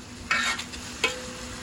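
Food sizzles steadily on a hot grill while it is stirred, with two distinct scraping strokes cutting through the constant faint frying hiss.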